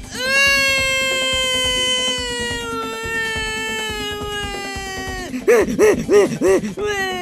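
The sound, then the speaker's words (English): A voice wails, comically exaggerated, in a parody political ad. It holds a loud, high cry for about five seconds, then breaks into a run of short, warbling yelps that rise and fall in pitch. “I will now wail for the trees that can't.”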